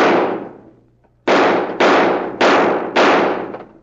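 Gunshots from guns that are called toys, fired at knobs on a sign down the street: a decaying bang followed by four sharp, loud cracks at a steady quick rhythm, each with a ringing tail, and no voices.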